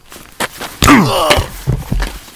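A hard blow to the back of a man's head, staged as a radio drama effect. A heavy, full thump comes with a pained vocal groan, surrounded by a few lighter knocks and shuffles.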